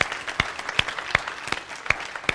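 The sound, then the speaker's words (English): Applause from a church audience honouring teachers: a steady wash of clapping with a few sharp, louder claps standing out at irregular moments. “Like, let's just take just a moment and let's give them some applause.”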